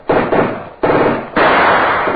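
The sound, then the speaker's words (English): Tommy gun firing as a radio drama effect: three loud, dense bursts of rapid machine-gun fire, each a sustained harsh rattle, the last one longest. “Hassan, the machine gun you see, Mr. Knight. Against that, you have no chance.”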